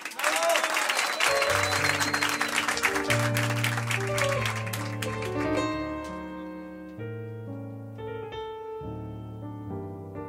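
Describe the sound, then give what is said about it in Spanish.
An audience applauds loudly over music with sustained melodic notes; the clapping fades after a few seconds while the music carries on. “¡Fuerte el aplauso para la Nobel!”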